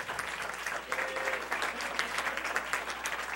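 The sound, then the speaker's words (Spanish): An audience claps for the Lord during a church service, producing soft, steady applause that holds throughout with a gently pulsing rhythm and no break. “Give the Lord a big hand tonight.”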